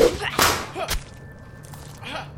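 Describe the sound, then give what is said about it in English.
Whip-like lashing of an arm in an audio drama: a few swishing whooshes with one sharp, snapping crack near the start, then a quieter swish later over a faint hum. “Her arm cracks across the room like a bullwhip, but this time, he has his knife ready.”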